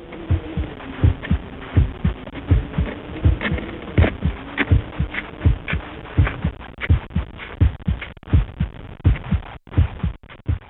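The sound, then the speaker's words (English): A heartbeat thumps in a steady, regular rhythm, with many low, muffled beats following one another at an even pace over a faint background hum. “A heartbeat.”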